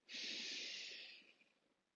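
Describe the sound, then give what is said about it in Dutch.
A person takes a single long breath, a soft airy hiss that swells quickly and then fades away. It is quiet and heard on its own. “Dus neem maar een ademteug.”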